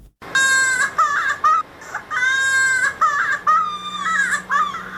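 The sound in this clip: A child cries in a report on polio vaccination in Helmand. Several long, high-pitched wails rise and break, loud and strained, with short gasping pauses between them.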